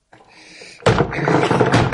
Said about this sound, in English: There's a sledgehammer in the garage. You want that cellar opened up? I'll open it.